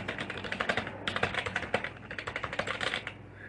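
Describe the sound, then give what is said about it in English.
Someone types a YouTube search on a computer keyboard in rapid bursts of clicky keystrokes, many taps with a brief pause partway. The typing stops just before the end. “I can go on YouTube right now and look up and type in border crossing from immigrants.”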